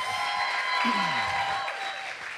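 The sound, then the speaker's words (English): A short burst of audience applause and cheering greets first-time visitors at a church gathering held in a bar. The broad wash of clapping and crowd noise fades slightly toward the end. “Can we just make a little bit of noise for all of our first-time people?”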